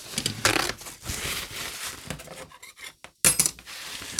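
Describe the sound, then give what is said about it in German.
Scrubbing of a green cutting mat with dish soap: uneven rubbing and scraping strokes with a light clattery edge, moderately quiet, broken by short pauses and a brief near-silent gap before the strokes resume. “Jetzt gehe ich hier einmal mit wieder mit dem Priel-Zeug drüber. In der Hoffnung, dass das sauber wird.”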